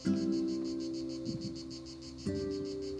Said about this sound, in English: I'm just relishing just now the summer sounds, the insects playing, butterflies fluttering around the lavender plants,